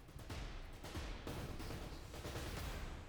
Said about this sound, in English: Vera has made it to the fray. And Vera will start railgunning these.